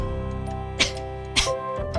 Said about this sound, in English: Sorry. Somebody was coughing?